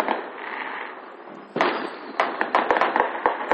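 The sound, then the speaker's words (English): Rapid automatic gunfire sounds as a fast, uneven series of sharp cracking shots. It follows a steady rushing noise at the start, and the bursts come close together and fairly loud. “Rapid fire, nigga. Auto, everything, yeah. That's nice. Don't waste a bunch of fucking ammo, though.”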